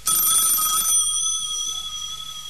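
A telephone rings with a bright, electric bell trill for under a second, then a steady high tone hangs on and slowly fades, with no one speaking.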